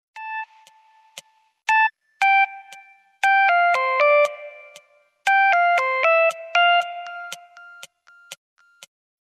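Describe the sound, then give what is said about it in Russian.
An electronic ringtone or bell chime: a melodic run of many short, clean, harmonic beeps at varying pitches, grouped into loud bursts with brief gaps, thinning to a few sparse high beeps at the end, with no voices. “Звонок. Еще один.”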